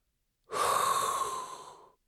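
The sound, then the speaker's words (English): A group inhales a hot breath together as one sustained, airy intake lasting about a second and a half. It starts abruptly, tapers off gradually, and has quiet on either side. “All together now. There's only one thing left to do. And that is inhale a hot breath.”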